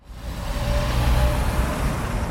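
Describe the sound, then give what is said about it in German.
Steady road traffic of cars, trucks and buses on a busy street in the east of Lucerne, near a bus depot. A broad, loud rumble of engines and tyres swells slightly and holds without pause. “Die Tripschenstrasse im Osten der Stadt Luzern. Täglich fahren hier 18.000 Autos und Lastwagen vorbei und etwa 700 Busse.”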